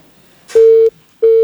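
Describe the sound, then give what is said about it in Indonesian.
A telephone disconnect tone after a dropped call: steady mid-pitched beeps, each about a third of a second, separated by short silent gaps. Two are heard, the second running to the end. “Aduh, terputus telepon biasanya.”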